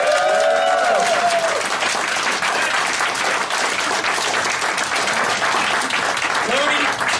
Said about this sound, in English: This show has been the biggest TFCon ever. East Coast! Cool. Yeah. Let's make some noise for East Coast, guys.